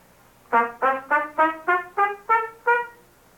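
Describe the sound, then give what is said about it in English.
Eight short, detached staccato notes on a brass instrument, each tongued separately with brief gaps between, at an even, moderate pace and similar loudness. “But as you heard in the bugle calls, we can also play short notes. We call that staccato playing.”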